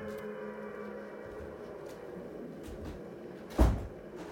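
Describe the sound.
A window being shut in a video game gives a single short, sharp clack near the end. A steady low background hum runs under it, and no other event stands out.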